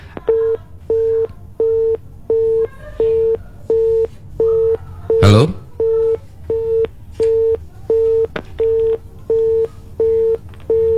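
A telephone busy signal repeats during an unanswered attempt to call back a district education official. Many evenly spaced, mid-pitched beeps pulse in a steady on-off rhythm, and one sharp, loud burst breaks in midway.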